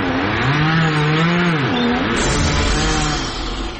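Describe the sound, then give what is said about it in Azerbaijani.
A chainsaw's engine drones loudly and continuously, its pitch wavering and dipping as saws cut trees in a forest; the buzzing carries on without a break to the end. “meşədən gələn mişar səsləri kəsilmir ki, kəsilmir”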